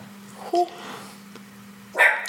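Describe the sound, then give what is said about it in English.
Two sharp dog barks set off by someone's singing, each a short harmonic burst that stands out above a steady low hum, with a quiet stretch between them. “I made the dog bark.”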